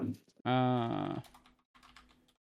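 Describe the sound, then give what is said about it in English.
Typing on a computer keyboard during a Linux driver install: a few quick, faint key clicks that follow a short, loud tonal sound. “Let me just type it on.”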